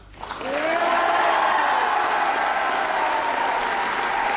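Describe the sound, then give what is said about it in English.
Loud applause from a crowd after the result of an Irish presidential election count is announced. It swells within the first half second and then holds as thick, sustained clapping to the end. “And the applause told it all.”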